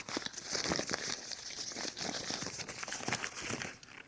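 Paper crinkling and tearing as the string on a tied package is cut and the wrapping ripped off, a continuous crackly rustle with sharp bursts throughout that fades out at the end.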